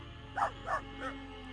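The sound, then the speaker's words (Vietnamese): Dog barking beneath a mango tree while clawing at the ground with its front paws: three short, faint, mid-pitched barks in quick succession over a steady tonal drone. “Nó dừng lại ngay dưới gốc cây xoài, rồi cứ như vậy cào hai chân trước xuống mặt đất. Vừa cào nó vừa sủa lên vài tiếng: "Vàng, Vàng ơi."”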